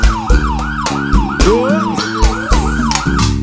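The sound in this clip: Siren sound effect in a live Brazilian dance-music recording, wailing up and down in quick repeated sweeps over a loud, pounding bass beat and drums.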